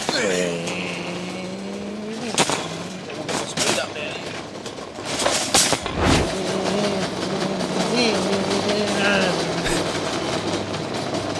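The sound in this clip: A man vocally imitates engine noises while pushing a shopping trolley at a Coles supermarket, making loud revving hums that rise, waver and fall, punctuated by sharp clattering bursts.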